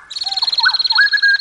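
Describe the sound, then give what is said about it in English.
Male splendid fairy wrens sing a high, rapid, buzzing trill that overlaps a butcherbird's song. The butcherbird's lower whistled notes are rich and fluting, a few rising and falling slurs under the continuous chatter. “which is why it's surprising that male fairy wrens often start calling the moment they hear a butcher bird sing. They'll overlap a butcher bird's call, like this.”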